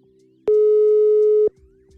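A single telephone line tone heard while placing a call: one steady, mid-pitched beep lasting about a second, sounding alone over faint line hiss.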